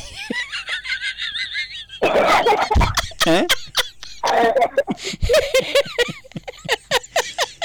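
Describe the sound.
A girl coughing repeatedly in loud, raspy bursts, mixed with laughter and snickering from others, with people talking around the coughs.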